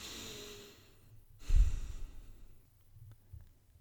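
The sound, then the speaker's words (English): A slow, deep breath, drawn in and released as a soft, breathy sigh. It is faint and quiet, with the strongest rush of air near the middle. “Take a deep breath. I've learned that from meditation podcasts I've listened to. Another deep breath.”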